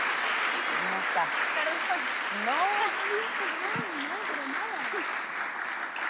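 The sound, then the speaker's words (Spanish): An audience applauds steadily throughout, and a voice speaks with rising and falling intonation over the sustained clapping. “Un aplauso para ella. Y para todas aquellas que sanan con la música.”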